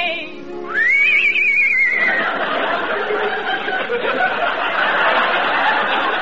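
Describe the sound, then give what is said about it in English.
A horse whinnies once, a loud high neigh that rises sharply and then wavers before breaking into a rough, noisy rush of sound. “Oh, boy, ain't you an ugly horse. You can't do tricks like Trigger.”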